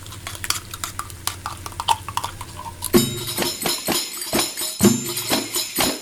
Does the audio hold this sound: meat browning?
yes